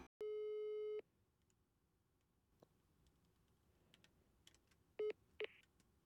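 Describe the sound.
Telephone line tones from a call that goes unanswered: one long, steady tone, then a stretch of faint ticks and clicks, then two short beeps near the end, with no voices.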